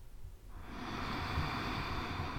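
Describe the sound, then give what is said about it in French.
A slow, deep breath in during a guided breathing exercise, heard as a soft, airy hiss that begins about half a second in and holds steady, faint and alone. “nous allons prendre une profonde inspiration.”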